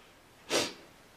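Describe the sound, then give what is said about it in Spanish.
One short, deep breath through the nose during a guided relaxation, a brief airy burst alone against quiet background hiss. “Y tomas tres respiraciones más profundas.”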